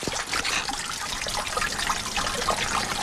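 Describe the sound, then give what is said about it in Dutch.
Rainwater from a downpour drains into a street gully with a steady, continuous trickling and gurgling. The flow stays fairly even in loudness throughout, with no voices. “Lekker water dat wegloopt in de kolk.”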